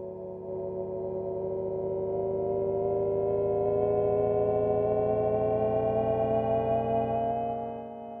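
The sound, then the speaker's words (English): A Jaguar I-Pace electric car's low-speed pedestrian warning sound: a synthetic, futuristic humming tone with layered harmonics. It holds steady and fairly loud, swells in at the start and fades at the end, with no other sounds. “And now Jaguar is detailing the noise that will be generated by the I-Pace. Take a listen for a moment.”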